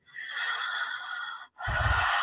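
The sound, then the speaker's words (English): A single deep breath: a long, airy inhale that stops briefly, then a fuller, breathier exhale, heard alone without talk. “Taking a breath to integrate that.”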